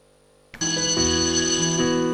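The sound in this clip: A school bell at a plateau school in Qinghai sounds after half a second of near silence: loud, sustained electric ringing with bright steady tones that shift slightly and carry on to the end.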